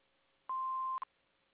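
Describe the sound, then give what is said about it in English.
A single steady high-pitched answering machine beep, clean and about half a second long, ending in a brief stutter, with near silence before and after. “we are not available now. Please leave your name and phone number after the beep.”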